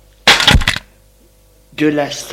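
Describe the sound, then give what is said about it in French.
A lamp is thrown and smashes, giving a sharp, bright breaking crash of about half a second with a few quick pieces. After a short silence a voice follows. “Le geste la défait de la prise, et jette la lampe sur Jean.”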